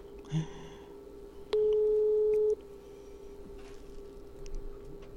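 An unanswered telephone call ringing before it goes to voicemail: one steady tone lasting about a second, clear over a quiet, hissy line.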